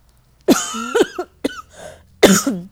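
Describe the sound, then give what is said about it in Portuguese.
A person coughs a few times: harsh, partly voiced bursts separated by short pauses, with a softer breathy sound before the final loud cough. “Desculpa, gente, sério mesmo, desculpa a tosse.”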